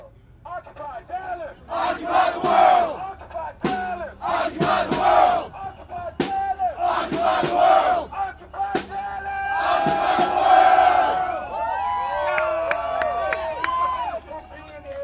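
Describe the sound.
Occupy Dallas protest crowd chanting in loud, rhythmic bursts of shouted phrases, many voices together, with brief gaps between chants and a continuous crowd noise underneath.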